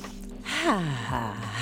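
A deep breath drawn in through the nose and let out through the mouth, heard as a loud gasp-like inhale that turns into a voiced sigh.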